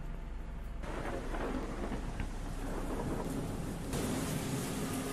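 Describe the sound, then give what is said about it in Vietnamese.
Steady heavy rain falls outside a house in a village at night, a dense, even hiss with a low rumbling underneath, continuous and fairly quiet throughout. “tiếng gió, tiếng mưa ở bên ngoài, càng làm cho không khí thêm ảm đạm.”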